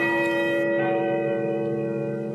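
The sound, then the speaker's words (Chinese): A riverside clock-tower bell chimes in the distance, one rich struck tone with a steady hum of overtones that rings on and slowly fades. “远处，江边的钟楼发出悦耳的钟声。”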